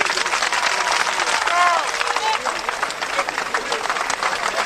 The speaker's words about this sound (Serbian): Ja vam predlažem da im se jednim dugačkim aplauzom zahvalite za podršku.